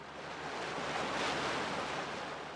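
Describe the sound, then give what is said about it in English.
Rushing water and wind from a motorboat skimming across a reservoir at night, a continuous broad hiss that swells slightly in the middle and eases off, with no voices. “our motorboat skims across the inky surface of a reservoir into the Black Canyon's dark embrace”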